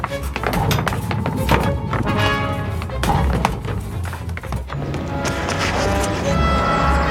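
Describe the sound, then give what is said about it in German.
Hurried footsteps pound down a stairwell: a dense, rapid clatter of heavy thuds and knocks, loud and continuous with no pause, set in a busy wash of other sound. “Wir müssen runter. Der Aufzug ist nicht da. Die Treppe, los! Komm!”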